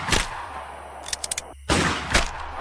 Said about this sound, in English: He fired 4 shots and managed to put 4 bullets into the chest of his former friend.